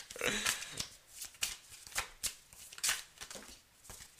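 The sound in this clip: Tarot cards are shuffled in repeated papery swishes and riffling slides, many short bursts following one another in an uneven rhythm at a moderate level.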